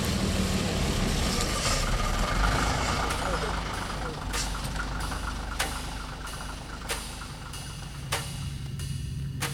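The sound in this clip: A city bus pulls up and idles, its deep engine rumble steady throughout, broken by a few sharp hissing or clicking bursts in the later part.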